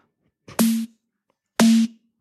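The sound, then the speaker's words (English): Two distorted snare-like drum hits, each a harsh, noisy burst with a sustained buzzing tone, evenly spaced and heard alone. “Let's throw a distortion on because that saves everything. You don't know what to do? Distort the shit out of it. It's gonna work somehow.”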